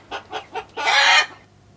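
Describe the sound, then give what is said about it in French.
A hen cackles after laying an egg: three short, evenly spaced clucks followed by a longer, harsh, sustained squawk, then quiet. “je vous ai mis un cri de poule, une poule qui vient de pondre un œuf, hein, parce que ce n'est pas le même cri que lorsqu'elle est en colère ou quand elle appelle ses petits.”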